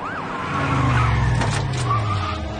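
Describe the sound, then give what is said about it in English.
Police cars skid to a stop, tires screeching steadily over a low engine drone. “Police cars stop.”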